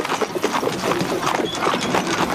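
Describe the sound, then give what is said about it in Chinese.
Horse hooves clip-clop as they pull an official's carriage along a street, a rapid, steady, fairly loud beat of overlapping hoof strikes over a rough rumbling bed of noise. “吁！这是御史大夫曹大人的马车，谁敢阻拦？”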